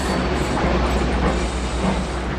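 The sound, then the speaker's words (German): A train pulling into a station: a dense, continuous rolling rumble with low clatter, steady and loud through the whole clip without distinct breaks. “Ich wohne in Hobsons Patch, wo wir eben einfahren.”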